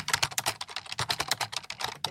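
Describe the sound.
Many quick, irregular keystrokes clatter on a computer keyboard as someone types text, a steady patter of light, crisp clicks with no voices.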